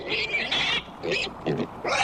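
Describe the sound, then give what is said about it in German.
A piglet oinks in a quick run of short, high, squealing grunts. The bursts are fairly quiet and heard alone, with brief gaps between them. “So klingt ein Ferkel.”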